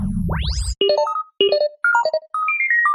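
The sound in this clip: A video phone ringing: a quick rising whoosh, then a bright electronic melody of beeping tones in a few short phrases, loud and alone.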